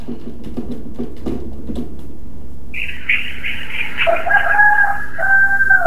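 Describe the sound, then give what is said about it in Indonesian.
A rooster crows once in a long, loud, strained call that drops in pitch toward its end, heard over steady low background noise. “Nah, tuh, ayamnya sudah nyanyi duluan tuh.”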